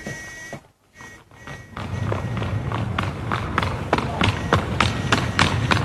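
Quick, regular footsteps of someone running off, a steady series of many light thuds that starts after a brief dip into quiet and keeps going to the end.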